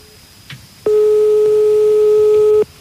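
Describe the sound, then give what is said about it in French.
A single ringback tone on an outgoing telephone call to a stranger plays as one steady, evenly pitched burst lasting under two seconds, with a faint click before it and quiet line hiss around it. “Je pense on va appeler un inconnu. D'accord. On appelle qui? Je sais pas. On l'appelle.”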